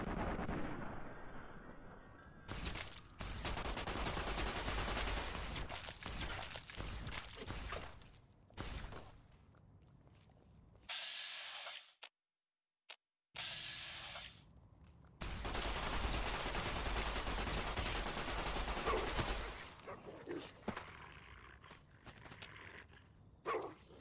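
Video game gunfire rattles in dense, loud bursts over long stretches, broken by a few short pauses and a brief silent gap near the middle, with no talking.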